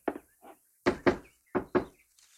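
Knocking on a house door: a few hollow thuds, with soft single raps at first and then two louder quick pairs, each pair followed by a pause.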